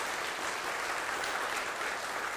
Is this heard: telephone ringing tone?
no